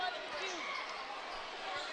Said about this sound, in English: Riley with the ball. 56-56 still the score. And Schindler will walk up with it. Through the center circle on the slow right-hand dribble.